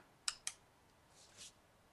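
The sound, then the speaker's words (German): Typing on a keyboard in the background comes through as two crisp, faint clicks in quick succession, followed by a soft brief rustle, then quiet. “Du tippst im Hintergrund.”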